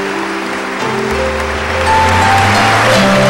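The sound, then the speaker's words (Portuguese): Church audience applauding during a service, a steady, even wash of clapping heard over sustained keyboard chords, with a deep bass note entering partway through and the music swelling a little louder. “Vamos aplaudir a palavra do Senhor.”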